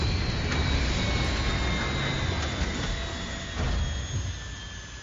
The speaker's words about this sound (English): Entering atmosphere. Prepare for landing.